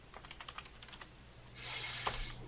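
Typing a message on a computer keyboard: a run of quick, light key clicks in an uneven rhythm, followed by a brief steady rushing hiss.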